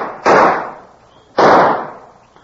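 Two sharp pistol gunshots at a police pistol range, each a loud, sudden crack with a decaying tail that fades over about a second before the next.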